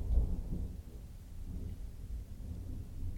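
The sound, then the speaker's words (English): Thunder rolls as a low, soft rumble, swelling slightly at the start and then continuing as a steady dull roar with no talking over it. “Ooh, the thunder.”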